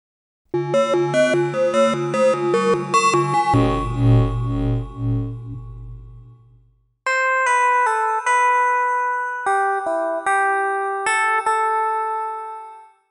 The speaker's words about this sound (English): frequency modulation synthesis of bell-like tones,